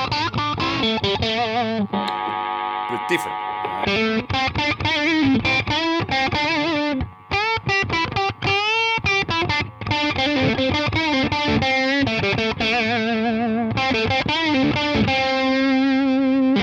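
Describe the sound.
Stratocaster electric guitar in the in-between pickup position, giving a thin out-of-phase tone through distortion and effects; loud, busy riffs mix with sustained ringing notes throughout, and a voice briefly speaks.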